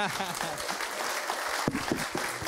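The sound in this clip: Applause from a church audience greets a guest preacher, a dense, steady wash of clapping that runs through the whole short stretch, with a voice speaking over it.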